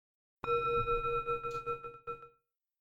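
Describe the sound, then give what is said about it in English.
A small sound bowl used for a guided meditation is struck once and rings with a clear, bell-like tone. Bright overtones sustain for about two seconds before dying away. “you'll hear the bell. I have a little sound bowl and it sounds like this.”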